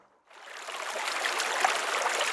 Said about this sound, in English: I'm standing on the banks of the Mura River in Slovenia on a small stretch of shoreline they call Love Island.